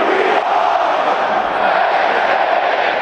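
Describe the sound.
A huge stadium crowd at Penn State's Beaver Stadium chants together, a massive, sustained roar of voices that stays loud and unbroken throughout.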